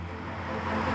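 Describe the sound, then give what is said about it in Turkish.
Car being driven, a steady low engine and road rumble that stays even through the short stretch. “Bak, sen araba kullanıyorsun, ben de arabayla gezdirilmeyi severim.”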